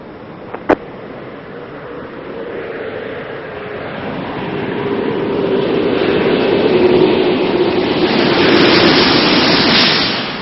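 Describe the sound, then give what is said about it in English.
Space shuttle orbiter touching down on runway 33 at Kennedy Space Center: a broad, continuous rushing roar with one sharp click near the start, swelling louder through the middle and end. “Main gear touchdown. And nose gear touchdown.”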